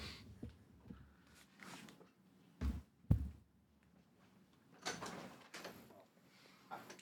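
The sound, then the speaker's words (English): A falling tree branch gives a couple of dull, faint thumps close together, with quiet voices and soft rustling around them. “Oh, hello. Branch. Is it raining tree branches or something?”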